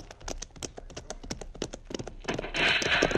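Horses' hooves clatter as riders set off, with many quick, uneven hoof beats at moderate volume, followed by a louder, steady rushing noise near the end.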